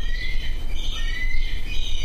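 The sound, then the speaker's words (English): Bald eagles call inside a large raptor rehabilitation enclosure at the Gray Snow Eagle House, giving thin, high chirping whistles that overlap in quick repeated bursts over a steady low rumble. “Social bald eagles nosedive across the large enclosure at the Gray Snow Eagle House, while others perched up high watch.”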